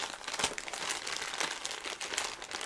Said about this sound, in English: There's a little piece of tape I have to undo. And if I pull hard enough, I should be able to.